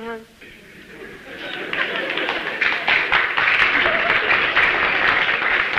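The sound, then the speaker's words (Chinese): Applause from a small audience at a comedy performance: scattered claps swell out of a quiet start into a steady, moderately loud patter that holds to the end. “那这鼓掌的人不多呀。鼓掌的人都是南方人。”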